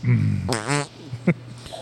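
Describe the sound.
Fart noises: a longer, buzzy, vibrating blast followed a moment later by a shorter, sharp burst, both fairly loud against a quiet background.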